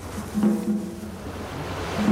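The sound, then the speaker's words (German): Wind-driven waves on the Pacific off Japan's rocky Ise Peninsula make a soft, steady rushing wash with a faint low hum underneath. “Draußen auf dem Pazifik treibt der Wind die Wellenberge immer höher.”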